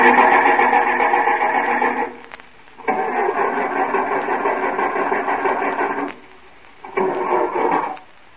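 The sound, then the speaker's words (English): A car engine turned over with a push-button starter: three loud bursts of buzzing, grinding cranking separated by short silences, the middle one longest, with no engine catching. “Got one of them push-button starters. Yeah, that's an improvement over the crank. Yep. I'll just turn it over a few times so you can see.”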